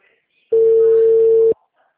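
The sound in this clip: A single telephone call tone sounds as an outgoing call connects: one loud, steady, mid-pitched beep lasting about a second, starting and stopping abruptly amid near silence.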